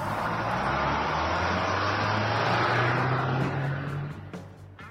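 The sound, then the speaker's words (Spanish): Engine noise of a bus pulling away, a loud, steady low rumble layered with broad roaring noise that holds for several seconds and then eases off near the end. “Siéntense que ya arrancamos.”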